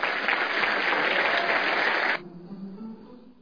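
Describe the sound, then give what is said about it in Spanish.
Audience applause welcomes people at a cultural event. Dense, sustained clapping runs for about two seconds, then cuts off abruptly and leaves only a faint low murmur. “todos vamos a brindar un cariñoso aplauso de bienvenida.”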